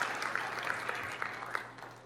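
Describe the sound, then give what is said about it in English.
Church audience applauding a minister from the pulpit: faint, scattered hand claps, a few sharper ones standing out, over a low steady hum. “And y'all can go ahead and clap for him because I'm so thankful for what ministry he brings to this pulpit.”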